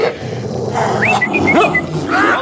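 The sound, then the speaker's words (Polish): A three-headed dog growls while biting a man's trouser leg, a continuous snarling rumble broken by several high, whining yelps and whimpers. “bądź grzecznym psem. Puść nogawkę pana. Nie tylko jednym łbem. Wszystkimi trzema.”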